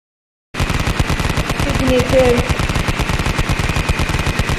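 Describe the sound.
Rapid machine-gun fire as a sound effect bursts in after a brief silence, a loud, steady stream of quick shots rattling without pause for about four seconds.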